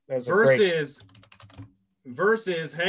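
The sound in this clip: Keyboard typing as a Pokémon name is entered into a search: a short burst of rapid, light key clicks set between stretches of a man talking.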